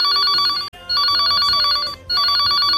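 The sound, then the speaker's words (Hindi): Telephone ringing on a call nobody answers: a bright electronic ring tone sounding alone and loud in three bursts, separated by two brief breaks. “सुबह से phone लगा रही हूँ, घंटी बज रही है लेकिन फोन रिसीव नहीं कर रहे हैं।”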